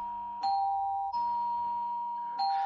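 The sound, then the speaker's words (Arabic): A doorbell rings with three clear, sustained electronic chime tones that hold steady between strikes, with no talk. “ايه ده؟ ده جرس الباب بيضرب”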